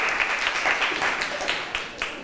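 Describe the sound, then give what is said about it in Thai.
Students in a classroom clapping for a classmate who gave a correct answer, uneven scattered clapping at moderate loudness with a few sharper claps standing out near the end. “ถูกต้องค่ะนักเรียนเก่งมากปรบมือให้เพื่อนหน่อย”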